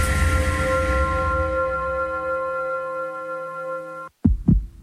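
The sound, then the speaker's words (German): A heartbeat sound effect from a heart centre advert follows a steady, loud, sustained tonal hum. After a brief silence come two low, heavy thumps in a quick double beat. “Jeder Herzschlag zählt”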